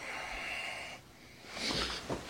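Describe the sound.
Agitated breathing of a man just woken from sleep in an armchair: a couple of ragged, noisy breaths in and out, fairly quiet, with no talk.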